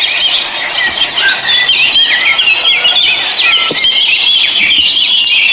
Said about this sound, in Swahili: Angalieni lile kundi la ndege wanaokupita pale.